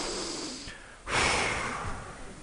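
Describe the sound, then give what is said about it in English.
A group of people in a room breathes together, first a steady airy inhale, then a short hush before a loud collective exhale that rushes out in a broad whoosh and slowly fades. “we're all going to take a big inhale and we're going to exhale together.”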